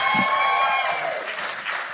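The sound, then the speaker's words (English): A round of applause from an audience, with a short burst of steady clapping and a high, held cry over the first part. “He's amazing. Give him a round of applause.”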